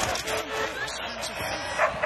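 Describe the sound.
A dog on a football pitch during a match gives faint, short yips and barks, with a couple of sharper bursts near the end, heard under people talking.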